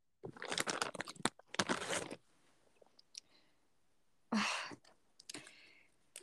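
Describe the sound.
Crunching and crinkling noises from someone eating a snack arrive in a few dense, noisy bursts of chewing and wrapper rustle, with quiet gaps between them and no talking.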